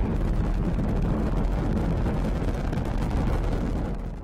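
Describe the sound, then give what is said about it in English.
A deep, continuous roar comes from a SpaceX rocket lifting off from Florida early in the morning with four crew aboard. The loud, crackling rumble holds steady throughout and eases slightly at the very end. “Thomas Pesquet and 3 others were aboard the 3rd SpaceX launch with humans. The launch was delayed one day because of Florida weather, but the crew was able to lift off early Friday morning.”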